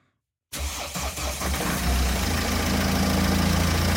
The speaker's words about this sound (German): Wir fahren etwa 45 Kilometer von der derzeitigen Hauptstadt Kairo Richtung Osten.